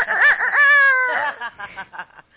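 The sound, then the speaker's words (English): A person imitates a rooster crowing with a loud, drawn-out nasal call. It rises to a held middle note, then breaks into choppy trailing vocal sounds. “You didn't know I could crow?”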